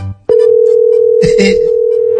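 Telephone tone after a dropped call: a loud, steady, unbroken tone that starts abruptly and holds to the end, with a brief burst of clatter partway through.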